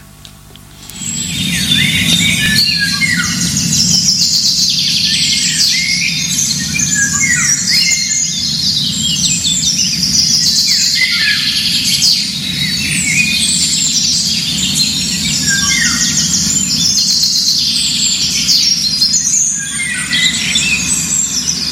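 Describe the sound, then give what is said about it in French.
Several songbirds singing outdoors in nature, a loud, continuous tangle of high chirps, trills and squeaks that starts after a quiet first second and runs on without a break. “Alors, vous allez très vite voir que c'est un chant d'oiseau. Ça se passe quelque part dans la nature. Il y a plusieurs oiseaux.”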